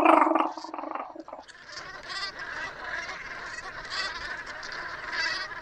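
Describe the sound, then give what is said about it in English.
Geese call on a coastal salt marsh: a loud honk opens, then a flock keeps up a steady, dense chorus of softer honking and chattering calls to the end. “That's the sound of our salt marshes in the coast at this time of year. They're a stunning little goose as well, aren't they?”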